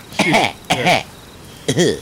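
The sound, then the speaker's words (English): Three deliberate coughs, each voiced and throaty, in an uneven rhythm. The first two come close together, and a short pause comes before the third. “I'm going to cough. I'm going to give you a series of coughs. I'm going to give you a lot of coughs to choose from.”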